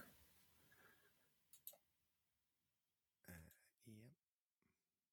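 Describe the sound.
Two quick, sharp computer mouse clicks sound close together during screen sharing. They are very faint and come ahead of brief, soft voice sounds.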